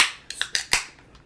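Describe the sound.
A beer can cracked open: a bright hiss fades at the start, followed by a few sharp metallic clicks in quick succession and one faint last tick.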